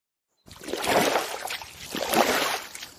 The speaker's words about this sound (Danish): De skiftes til at ro.